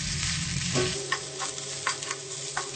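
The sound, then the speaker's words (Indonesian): Lemongrass, galangal and ginger stir-frying in a pan, giving a steady, dense sizzle. A few sharper scraping stir strokes cut through it at irregular moments. “serai, lengkuas, jahe. Nah, kita tumis sampai layu dulu dan harum.”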